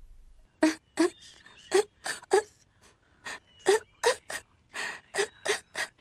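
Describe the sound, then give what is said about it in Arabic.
A young boy cries alone in many short, gasping sobs and wails, each burst catching sharply, repeating in a fairly steady rhythm at low volume. “لا تبكي، لا تبكي يا ولدي، أنا هنا، أنا بقربك يا ولدي، لا تبكي.”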